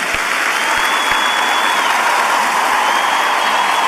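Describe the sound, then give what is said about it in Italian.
A crowd applauds in dense, continuous clapping that stays at an even, loud level with no pauses. “se raccoglie un strano applauso”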